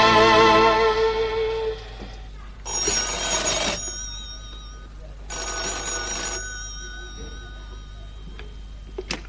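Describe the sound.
A telephone bell rings in two long, bright bursts of about a second each, steady and loud, with quieter, lower sound between and after the rings.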